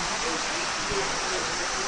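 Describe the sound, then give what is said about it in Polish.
Heavy rain pours outside a window during the rainy season in Papua, a steady, dense hiss that holds evenly without breaks or distinct drops. “A za oknem leje.”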